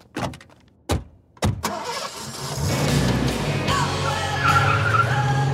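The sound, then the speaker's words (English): A car races off with its tires squealing, opening with a few sharp knocks before the engine roars up into a loud, steady drone with screeching tire noise running through it. “There they go, racing off with the evidence before I can even begin to get my scoop.”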